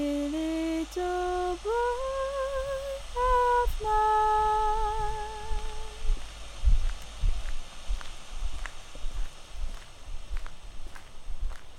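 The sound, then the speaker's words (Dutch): Footsteps walking through the Leidse Hout park in Leiden, a long irregular series of soft steps that begins as a few held musical notes end and continues alone. “Ik loop nu door het Leidse Hout. Dat is een heel mooi park in Leiden waar ik nog nooit eerder geweest ben.”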